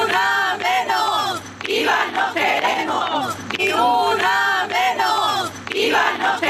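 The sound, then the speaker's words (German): Women's voices chant together at a night-time street demonstration against violence toward women, a loud, rhythmic, repeating group chant of many raised voices that continues without pause. “Das waren Frauenstimmen. Und es ging eine halbe Stunde lang, bis sie irgendwie durch die Nacht getragen wurde.”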